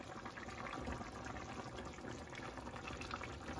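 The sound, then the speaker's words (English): Crushed tomatoes from a 14-ounce can pouring into a cooking pot, a soft, continuous wet glugging and splashing, faint and steady throughout. “So now at this point, we're gonna add in our 14 ounce can of crushed tomatoes.”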